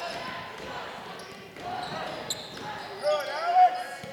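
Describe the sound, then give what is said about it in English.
A basketball is dribbled on court during a game involving Houston, a few quick bounces thudding under a commentator's steady play-by-play voice. “Right wing with it now in that dribble on a drive.”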